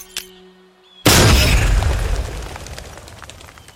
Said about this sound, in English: Okay, everyone, heads down. Grenade!